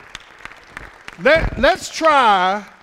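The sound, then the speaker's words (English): An audience in church claps a few sharp, separate hand claps, then loud voices call out and sing over the top. “Give the Lord a hand clap. Come on now. Give the Lord a hand clap.”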